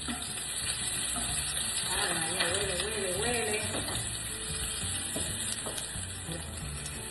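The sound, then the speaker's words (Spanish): Garlic and a quarter of an onion sizzle in hot olive oil, a steady bright hiss that runs throughout with faint stirring sounds over it. “rapidito aceite de oliva. Le vamos a añadir inmediatamente el ajo, saben que no me puede faltar. Rapidito la cebolla.”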